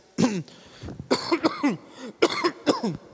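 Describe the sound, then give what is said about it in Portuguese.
A coughing fit from a preacher with bronchitis during a church service: many harsh, raspy bursts in quick clusters, loud and with no talk between them. “perdão, irmãos, eu estou com bronquite, eu já falei pela manhã, eu preciso tossir, senão a coisa fica feia.”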